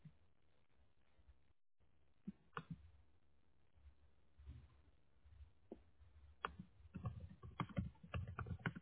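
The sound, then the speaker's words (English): Faint typing on a computer keyboard, beginning with sparse, isolated keystrokes and building into a quick, irregular flurry of taps toward the end. “whenever you get to the computer, just type in like fencing, Mineola.”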